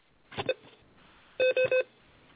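Telephone keypad dialing tones sound as someone dials into a call. A brief irregular burst of tones comes first, then three short, evenly spaced beeps sound clearly in quick succession.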